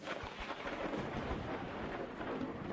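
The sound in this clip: Heavy rain driven by wind, with thunder: a dense, continuous hiss of downpour over irregular low rumbles, fairly faint overall and without voices.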